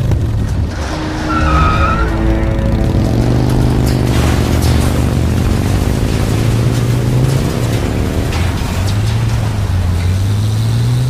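Tires squeal as a car drives fast and skids, a loud, sustained screech with wavering pitch over the engine's roar that carries on without a break, with no talking.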